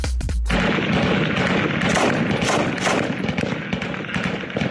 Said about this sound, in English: That was the sound of fighting in the ancient Syrian city of Palmyra earlier this year.